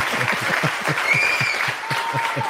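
Applause for a quiz winner, a dense and steady patter of clapping that holds at an even, fairly loud level throughout.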